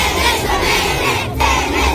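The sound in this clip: Roadside crowd and children cheering: loud, continuous shouting and cheering from many voices that barely lets up, with a brief dip shortly after the midpoint before surging again.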